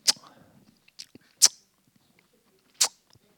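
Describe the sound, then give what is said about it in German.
Lips smack by mouth in imitation of a church audience sitting in rows and tasting during prayer time. There are a few sharp, wet smacks separated by quiet gaps, with faint mouth noises in between. “Also die saßen in den Reihen und schmatzten.”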